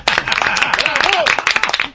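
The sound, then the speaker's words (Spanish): A group claps on a food segment presenting a Galician pizza with a mix of quick, uneven hand claps and loud, excited voices throughout. “¡Aplaudimos! ¡Bravo!”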